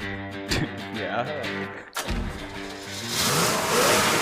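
A Corvette's engine revs while being driven hard, a throaty roar that drops off briefly mid-run before climbing back and growing louder toward the end.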